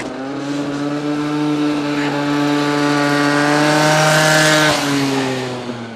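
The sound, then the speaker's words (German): A tuned scooter engine revving hard, a loud, buzzy drone with a strong steady pitch that swells slightly in the middle before easing off near the end, with no talk over it. “Jetzt weiß ich, wo der Typ mit dem frisierten Roller wohnt.”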